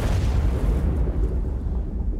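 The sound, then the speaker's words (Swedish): A type 65-76A torpedo exploding in a submarine's forward torpedo room, setting off a fierce fire and pressure wave: a loud, sustained roar of deep rumbling and crackling noise that holds steady without a distinct onset. “En explosion inträffar i ubåtens främre del. Explosionen startar en kraftig brand och en tryckvåg sprider sig vidare från torpedrummet till stridsledningsrummet.”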